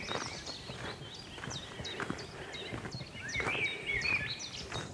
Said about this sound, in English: Willow warbler here. Chiff chaff.